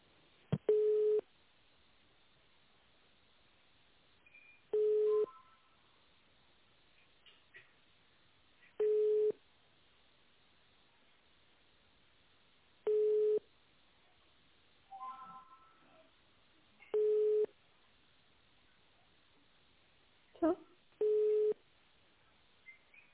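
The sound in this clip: Telephone ringback tone while a call is transferred to an office: six steady, mid-pitched beeps of about a second each, evenly spaced roughly four seconds apart over a narrow phone line, with faint muffled sounds between some of them.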